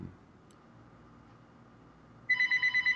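A telephone rings: a rapid, trilling electronic bell bursts in near the end after a quiet stretch of low background hum, pulsing a few times in quick succession.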